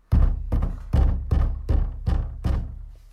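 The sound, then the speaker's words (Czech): Fists pounding on a wooden door: a steady series of about six heavy, deep thuds, evenly spaced and loud, each ringing out briefly before the next blow, with no voices. “Mámo, někdo nám tluče na dveře.”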